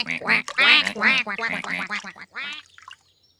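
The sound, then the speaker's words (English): Ducks quack in a rapid, irregular run of many loud, nasal calls that tumble over one another, then thin out into a few fainter quacks before falling quiet. “Look at the birds. Those are ducks.”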